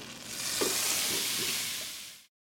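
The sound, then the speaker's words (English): Meat seasoned with salt, pepper and cayenne sizzles and fries loudly in a hot, smoking skillet, giving a steady, bright hiss that holds for about two seconds before cutting off abruptly. “When the skillet is smoking, it's time to throw it in.”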